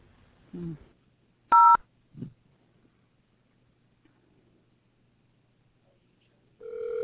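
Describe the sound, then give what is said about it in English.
Telephone keypad tones sound while a caller dials into a jewelry store's automated phone menu. One sharp two-note beep stands out between a few faint low blips, and a steady electronic tone begins near the end. “To speak to a team member, please dial 0.”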